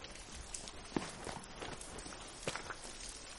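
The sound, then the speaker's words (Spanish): Footsteps climbing the stairs of an apartment building, faint and steady, with many evenly paced soft thuds and scuffs. “Entra en el bloque de pisos. Sube las escaleras.”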